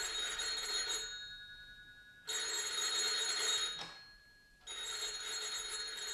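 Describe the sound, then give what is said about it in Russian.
A telephone bell rings in three bursts separated by short pauses, a bright metallic ringing that is fairly faint, with no voices over it. “Алло, Салов слушает.”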